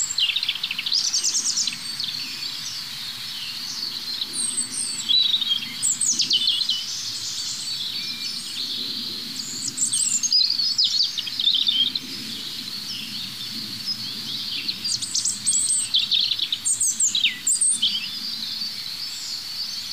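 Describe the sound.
Birdsong in which the strophes of several individual birds overlap and mix: many high, bright chirps, trills and whistles follow one another continuously over a faint low rumble, with no voices.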